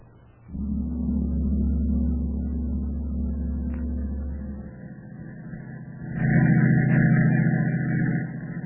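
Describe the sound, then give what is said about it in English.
A car engine drones steadily as a staged sound effect of night driving. The low hum runs evenly, dips, then swells again with a higher whine toward the end. “Night for driving, ain't it, boy? Yeah. Well, night. Clear and cool. I enjoy driving on a night like this.”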